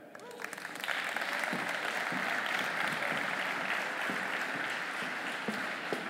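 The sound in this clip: An audience applauds to welcome two speakers onto the stage at a micromobility event, many dense overlapping claps forming a sustained, even wash that stays steady to the end.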